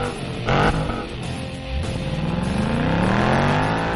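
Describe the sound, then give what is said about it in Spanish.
Car engine revving, a broad mechanical roar with a brief louder burst early on, then a climbing whine as the engine pitch rises steadily through the second half, with no voices. “Abróchense los cinturones, prepárense a encender motores, giren la llave y arrancamos.”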